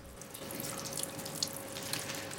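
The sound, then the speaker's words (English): Running water at a scrub room sink as two people wash their hands side by side: a steady, even hiss with a few faint splashes and no talk. “They wash their hands side by side.”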